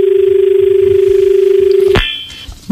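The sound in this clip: A telephone ringing in for a caller on a farming radio phone-in: a steady, buzzing ring tone holds for about two seconds, then is cut off by a click and followed by faint line noise.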